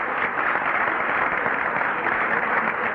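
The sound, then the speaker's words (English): Sustained applause from an audience clapping for a guest, a dense, steady crackle of many hands at even loudness throughout, with no voices standing out. “I think we ought to have a round of applause for my mother,”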